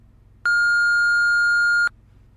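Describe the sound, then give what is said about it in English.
A voicemail beep sounds: a single steady, high-pitched electronic tone lasting about a second and a half. It is loud and clean, alone over a faint low hum. “Hello. You have reached the voicemail of John Watson. Please leave a message.”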